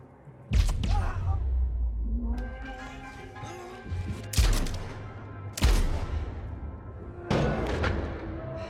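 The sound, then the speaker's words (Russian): Gunshots fired into a sofa in a film scene, a few sharp, loud bangs spaced several seconds apart, with quieter tonal sounds lingering between them. “Лоррейн прячется за диван, в который стреляют.”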